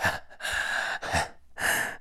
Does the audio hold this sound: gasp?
yes